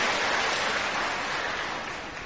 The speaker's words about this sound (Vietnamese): Xin các bạn cho một tràng pháo tay để tán thán chung điều đó.